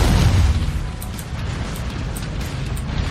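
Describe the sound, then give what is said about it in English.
Explosions rip through a building being destroyed in a video game, opening with a loud, deep boom that settles into a sustained, crackling rumble. “I'm just like destroying this building that's there.”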